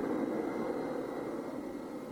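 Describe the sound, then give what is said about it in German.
Steady roar of an airplane landing at an airport, a sound effect for a radio play: an even, continuous engine drone with no change in level and no voices. “Wenige Stunden später, es ist schon wieder hell draußen, da landet das Flugzeug auf dem Flughafen von Mungo Bungo.”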